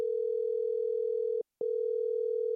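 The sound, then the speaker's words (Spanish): Telephone line tone as a call is placed: a steady single-pitched hum that cuts out briefly at the midpoint, then resumes unchanged to the end, clear and alone. “Te llamo en directo de Onda Madrid”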